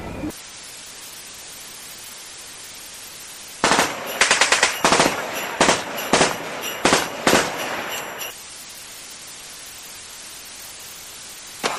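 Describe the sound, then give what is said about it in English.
Gunfire from a gun in a film: a rapid string of many loud, sharp shots lasting a few seconds, set against a steady hiss before and after. “Tell me now, what do you want a gun for? Just so I can pull the trigger.”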